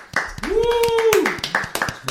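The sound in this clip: A person claps hands, giving a few sharp, separate claps alongside a speaking voice.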